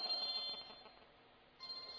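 A mobile phone rings during a grammar lesson, giving a faint, continuous electronic ringtone with a steady hiss behind it. The tone thins out briefly in the middle, then returns at full level.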